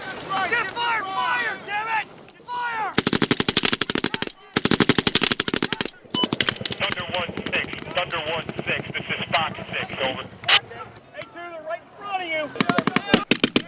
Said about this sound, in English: Equipped with night vision goggles, 120 Marines land in an open field and quickly lay down bursts of fire. Blanks, in this case, on an opposing force that's hidden in a forest 150 yards away.